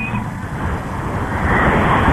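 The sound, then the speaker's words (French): Police motorcycles and national police vehicles pass in a motorcade, a loud, continuous engine rumble and road roar that swells slightly toward the end. “les premiers véhicules de la police nationale qui passent à ma hauteur. Les motos de la police nationale”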